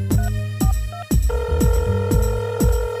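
Telephone ringing as a call is placed: a repeating electronic ring with sharp, falling blips at a steady rhythm over sustained tones, loud and alone.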